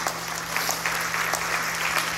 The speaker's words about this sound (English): All right, quit clapping